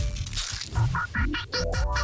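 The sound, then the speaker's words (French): Hen clucking sound effect, a loud, rapid run of short, nasal clucks that step upward in pitch toward the end, with no talk over it. “vous écoutez Rouge et dès que vous entendez une cocotte à l'antenne, on vous fait écouter le bruit. La cocotte fait ce bruit là.”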